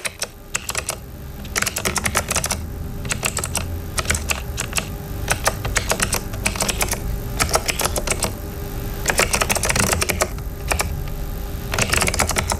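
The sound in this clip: Typing on a computer keyboard: rapid, irregular clicking keystrokes come in dense bursts separated by brief pauses, crisp and fairly loud throughout.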